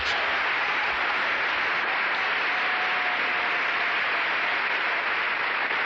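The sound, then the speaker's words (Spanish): Applause from a church audience during a Christian sermon, a steady dense wash of clapping held at even loudness across the whole stretch, with no voices over it. “Entendido el mensaje hasta esta altura, de un aplauso al Señor.”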